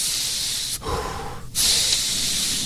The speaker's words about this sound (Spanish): Respira así profundamente, pero varias veces, muchas veces